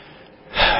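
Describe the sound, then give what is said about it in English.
A single sharp, deep breath is drawn in as an audible gasp. A faint airy hush swells into a loud rush of air in the second half. “I'm going to breathe.”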